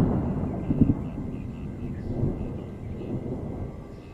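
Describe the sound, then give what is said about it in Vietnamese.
Dry thunder rumbles low and steady, a continuous rolling roar with a few slightly louder swells, holding at moderate loudness throughout without a sharp crack. “Đúng lúc đó thì trời nổ sấm khan, tiếng sấm vang vọng báo hiệu sắp sửa có một cơn mưa lớn.”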